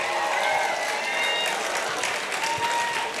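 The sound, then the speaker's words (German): A festival crowd cheers and applauds for the DJ in a dense, steady wash of clapping with scattered shouts. It stays loud and even from start to finish. “Und mach mal bitte fett Lärm für meinen DJ Nasty, Hamburgs Finest, Berlin's Realist.”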